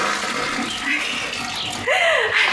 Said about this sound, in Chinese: 俺咋没听见水响嘞？哎呀，忘了忘了，呀，忘冲水嘞。